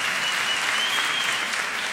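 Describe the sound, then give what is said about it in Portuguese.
Audience applause for a singer at a new-talent award night, a dense, steady wash of clapping that holds at an even level from start to finish. “Uma salva de palmas para ela.”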